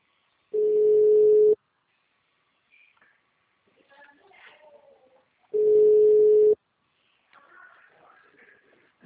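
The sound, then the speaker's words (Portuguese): Telephone tone after a dropped call: two steady one-second beeps several seconds apart, with faint scattered rustles and clicks between and after them. “Nossa, a ligação caiu? Caiu.”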